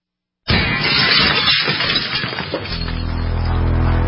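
Glass smashing as a staged home break-in sound effect: one sudden, loud crash of shattering glass bursting out of silence, its scattering shards fading as a low, steady drone rises underneath.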